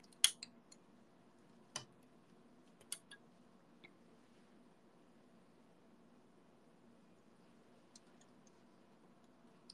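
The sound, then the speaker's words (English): Sharp snips of scissors or a cutting tool as items are cut, a few brief, faint clicks spaced irregularly across a quiet stretch over a steady low background hum. “C7 and 8. I'm gonna cut them now.”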